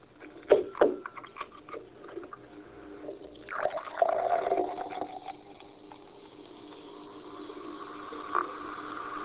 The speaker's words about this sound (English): A nice refreshing drink there on our way, but it made a lovely noise as I poured it. But where is that noise coming from? The hissing sound you heard came from bubbles.